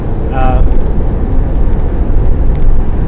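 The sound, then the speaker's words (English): Inside a moving car, a steady low road rumble and engine drone runs throughout while a person talks over it. “Well, sitting in my car now, driving along,”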